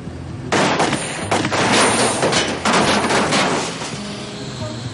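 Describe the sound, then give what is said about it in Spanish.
Gunshots are fired at a van's tires in a crime thriller scene: a few loud, sharp bursts crack out in quick succession, and each leaves a rough, noisy tail that fades between shots. “Disparan a las ruedas que se desinflan, pero no hay señales de nadie.”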